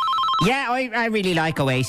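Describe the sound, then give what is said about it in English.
Phones ringing during an equipment test, among them an iPhone 15 Pro Max and two Samsung Galaxy phones: bright electronic ringtone tones sound at the start, then a person talks over them. “Yeah, so what you're hearing is I'm just testing my equipment here. So I've got four phones, including an iPhone 15 Pro Max, two Samsung Galaxies.”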